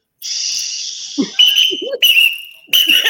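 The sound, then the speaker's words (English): A whistle is blown in a hallway: one long, shrill, steady blast, then two shorter loud blasts, with brief voice sounds mixed in between. “Why did you have a whistle by you?”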